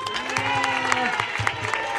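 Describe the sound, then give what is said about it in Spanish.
A neighbourhood community gathering breaks into applause, a dense patter of clapping hands that goes on steadily for two seconds, with voices and cheers mixed into the crowd noise. “¡Un aplauso!”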